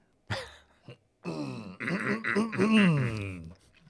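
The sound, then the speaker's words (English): Throat clearing: a few rough, voiced bursts followed by a longer groaning vocal stretch whose pitch wavers, moderately loud and with no other talk. “Gotta do my throat clear.”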